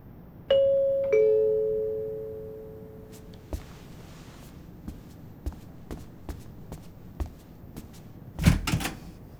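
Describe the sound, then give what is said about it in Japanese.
A front door is opened at night after a two-tone doorbell chime rings. A scattering of soft footsteps and small clicks follows, and a louder clatter comes near the end. “こんな夜中に無防備に玄関のドアを開けるな。”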